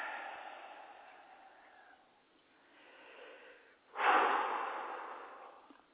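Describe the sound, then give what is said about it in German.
Slow, audible breaths in and out during a guided meditation, with softer airy breaths first and then a sudden loud, rushing breath that gradually fades away. “Also, einatmen, ausatmen, weiter.”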